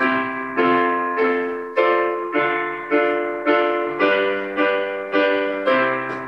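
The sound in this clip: A keyboard plays the chord progression C, F, D minor, G in triple time. Right-hand chords repeat in a steady pulse of about eleven even strikes over held left-hand bass notes, with the bass changing as the progression moves.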